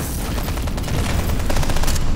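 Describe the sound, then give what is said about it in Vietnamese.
Wartime machine-gun fire and grenade explosions make a dense, continuous, loud roar of rapid bursts with no clear gaps. “bên tai ông lại ù đi bởi tiếng súng liên thanh nổ như pháo đạn, tiếng lựu đạn nổ long trời làm rung chuyển cả nền nhà”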